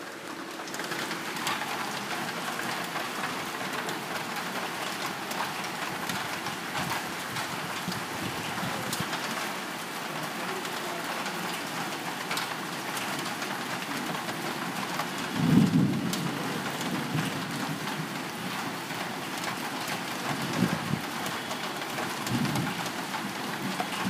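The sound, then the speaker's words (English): Soothing rain falls in a steady, even hiss for the whole stretch, soft and continuous, with a few low thuds breaking through. “call it ASMR or whatever, this rain sound feels very soothing.”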